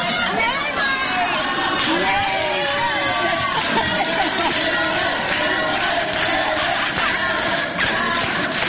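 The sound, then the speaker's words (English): A live audience chants together, a loud, sustained mass of voices that carries on through the whole clip. “You know what? As you guys are chanting”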